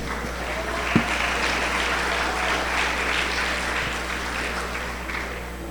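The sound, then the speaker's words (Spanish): An audience applauds during a Sunday morning church service, giving steady, sustained clapping throughout with one sharp knock near the start. “Dale un aplauso a Cristo.”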